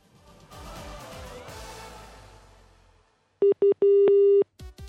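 A telephone call goes unanswered, giving two short beeps and then a longer steady tone, with a few more brief tones after. A stretch of louder, mixed sound comes before the tones.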